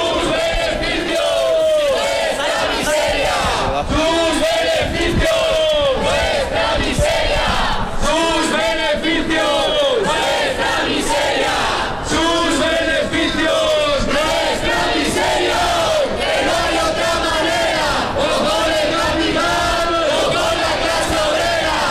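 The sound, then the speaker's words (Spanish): Street protest crowd in Valladolid chanting together against housing prices, a loud, dense mass of shouting voices that stays unbroken and roughly level for the whole stretch. “El sonido de la manifestación convocada esta mañana en Valladolid, también en Burgos”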